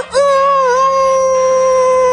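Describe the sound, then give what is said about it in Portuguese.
A male actor's voice imitates a rooster crowing: one loud, sustained, high harmonic call that swoops up at the start, then holds steady and alone. “Mas eu participava apenas com o meu canto de galo e ficava na expectativa.”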